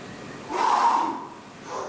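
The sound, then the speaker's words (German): A long, airy breath is drawn in and let out during an exercise session with a child, swelling and fading. A shorter breath follows near the end. “Jetzt einatmen und ausatmen.”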